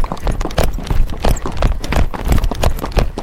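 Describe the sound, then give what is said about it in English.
A horse trots down a slight downhill path, its hooves clip-clopping in a quick, steady rhythm of many firm beats at a fairly constant loudness. “We're trotting a slight downhill.”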